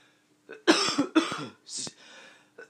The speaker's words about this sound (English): I recently started sneezing, coughing,